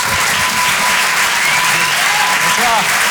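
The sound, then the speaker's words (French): A comedy club audience applauds loudly and continuously to welcome a comedian, with cheering shouts and a few whistles mixed into the dense clapping. “Je vous demande de l'encourager. Faites du bruit, s'il vous plaît, pour Boris Cholin.”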